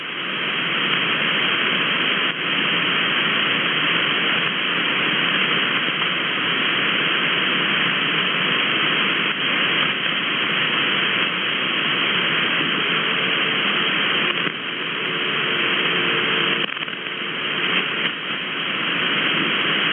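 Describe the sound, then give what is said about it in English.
Radio static hisses steadily from an amateur radio receiver tuned off frequency while a transmitter is adjusted. The band-limited, rushing noise holds an even loudness throughout, with only slight dips and no voices. “let me go off frequency real quick, and I'll tune it up.”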